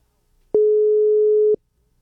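A telephone tone sounds while a friend is being dialed: one steady, mid-pitched beep lasting about a second, alone, with silence before and after.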